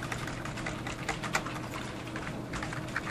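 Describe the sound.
Rapid keystrokes on a computer keyboard as a file name is typed, many light, even clicks in a steady run, fairly soft and with no talk.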